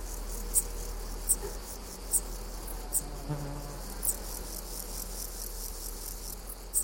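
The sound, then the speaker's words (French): A dark bush-cricket (Pholidoptera griseoaptera) stridulates in short, sharp, high-pitched chirps repeated at roughly one-second intervals over a steady high insect buzz. “Aussi la Decticelle cendrée. Pholidoptera, Griseoaptera.”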